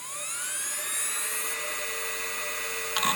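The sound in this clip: A laptop hard drive, in a 2005-era PowerBook, spins up with a thin, high whine that climbs in pitch and then holds steady, with a brief burst of noise near the end.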